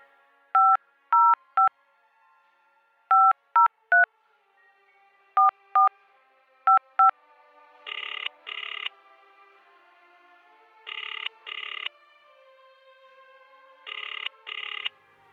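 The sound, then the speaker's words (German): A telephone number is dialed as a series of short touch-tone beeps in small clustered groups, followed by three faint double rings as the line rings out. “dann wollen wir mal den Malik anrufen”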